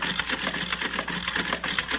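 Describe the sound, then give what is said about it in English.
A card sorting machine running gives off a continuous, fairly loud mechanical whir with a rapid, even clatter pulsing through it from start to finish. “All right, I'll set it in the machine. There. The cards for all the men are already in place. Good. Right? Now we'll set the machine running.”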